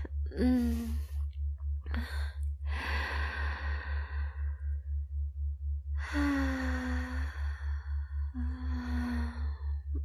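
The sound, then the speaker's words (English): Deep breaths drawn slowly during a guided breathing exercise focused on the stomach and chest: a few long inhales and exhales, some ending in a soft voiced sigh, over a steady pulsing low hum. “Take two breaths with me.”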